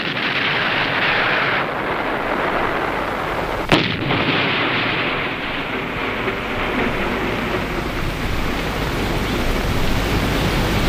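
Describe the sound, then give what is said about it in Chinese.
Heavy enemy artillery fire in a wartime battle: a continuous, dense roaring rumble with one sharper blast standing out partway through, and no voices. “敌人的炮火打得很厉害呀。”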